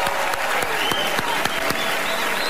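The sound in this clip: Dense, steady applause from a crowd at an awards ceremony, many hands clapping at once at a constant level for the whole stretch.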